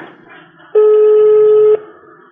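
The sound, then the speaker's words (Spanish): A telephone call rings out live as a single steady electronic ringback tone. It is loud and level and lasts about one second, with faint background noise before and after. “Vamos a probar aquí en directo la llamada al doctor Alexevi.”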